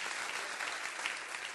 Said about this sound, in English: Clap your hands and say, I'm a part of that.